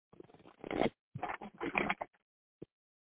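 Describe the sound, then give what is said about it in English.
Oracle cards being shuffled before one is pulled for a reading: a few quick bursts of papery riffling, then a single soft tap after a short pause. “I'm not seeing any questions from you, but I will pull a card for you if you don't mind.”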